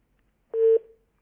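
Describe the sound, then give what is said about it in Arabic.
A single short, mid-pitched telephone beep sounds on a phone line after a dropped call. It stops cleanly and fades into silence. “يبدو ان اتصال حسام انقطع، على حسام ان يعاود الاتصال بنا مره ثانيه.”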